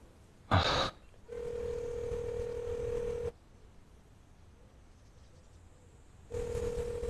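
Ringback tone of an outgoing telephone call that goes unanswered: a short click, then a steady low tone in long bursts separated by a few seconds of near silence.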